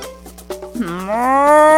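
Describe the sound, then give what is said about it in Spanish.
A field cow on a ranch moos in one long, loud call whose pitch rises slightly and holds steady to the end, following a few short soft knocks. “Una vaca de campo lo vio.”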